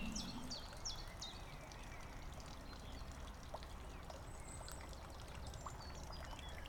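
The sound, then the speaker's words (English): Outdoor ambience at the edge of a pond full of lilies and frog spawn: a steady trickling water hiss with scattered high bird chirps above it, even in loudness throughout, with no talking. “So we're just at the edge of this pond, currently full of lovely lilies.”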